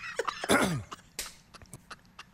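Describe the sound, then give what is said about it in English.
Whistling squeaks from a person's throat: a few short, thin tonal wheezes mixed with breathy, cough-like bursts, with one longer rasping burst early on and faint squeaks trailing after. “what is with the whistling in my throat? Did you just whistle out of your throat? Yes.”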